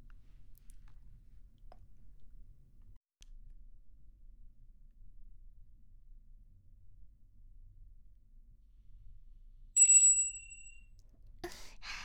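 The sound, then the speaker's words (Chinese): A small bell on a table is rung once, giving a single bright, high ding that rings on for about a second against near silence. “有需要请摇响桌上放置的魔法铃铛，呼叫您的专属女仆哦。”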